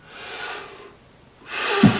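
A deep breath: a long, soft airy inhale, a short pause, then a louder breathy exhale with a brief nasal snort near its end.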